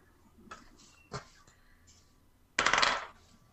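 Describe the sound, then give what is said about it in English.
Dice being rolled for a tabletop game: a couple of faint clicks, then a bright, loud clattering rattle lasting about half a second as they tumble and settle. “So could each of you roll dice equal to your sight affinity?”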